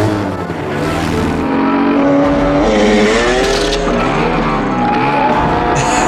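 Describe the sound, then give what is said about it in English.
A dirt bike motorcycle engine runs and revs hard, its loud continuous roar climbing and dipping in pitch within a dense wash of other sound. “is walking the motorcycle through the brush all stealth-like, gets on it and fires it up again. They'll never hear this.”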